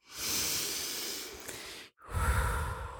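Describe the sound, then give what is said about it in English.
Deep breath taken in through the nose and let out through the mouth: a long airy inhale, a brief pause, then a rougher, fuller exhale. “Let's take a deep breath in together. Ready? In through the nose. Is that what they say? In through the nose, out through the mouth.”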